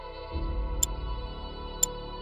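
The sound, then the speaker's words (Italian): A wristwatch ticks again after a jeweller replaces its battery. Two faint, sharp ticks land about a second apart over a low, steady background drone. “Porta l'orologio da un orefice, lo aprono insieme e l'orefice si limita a sostituire la pila.”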